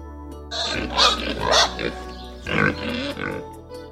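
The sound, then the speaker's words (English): A big pink pig oinking: rough, nasal grunts and snorts in several uneven bursts, loud and with no voices. “Pig. Pig. I see a big pink pig. A big pink pig.”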